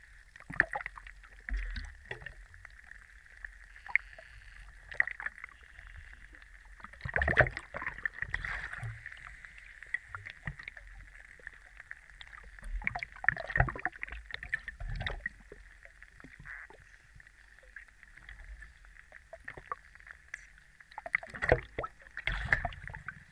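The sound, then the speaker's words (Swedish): An underwater microphone in a Baltic Sea harbour at Barsta on the High Coast picks up a steady faint hum. Scattered clicks and knocks run through it, with occasional louder sloshing bursts of water. “Far och dotter åkte till hamnen i Barsta i Höga kusten och släppte ner en av hans mikrofoner i Östersjön.”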